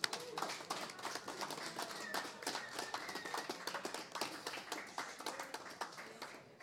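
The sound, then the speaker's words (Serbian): A small group claps in a radio studio, producing a quiet, lively patter of many quick claps that lasts several seconds without voices. “Ajmo, aplauz!”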